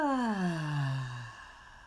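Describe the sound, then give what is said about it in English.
A voiced exhaling sigh is released during a guided breathing exercise, its tone gliding smoothly downward in pitch for just over a second before trailing off into quiet. “Breathe in and hold and release.”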